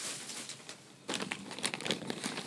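Scissors cutting the overly long hair of a wig: a soft crinkly rustle at first, then a dense run of crisp, dry snips and crunches, with no talking.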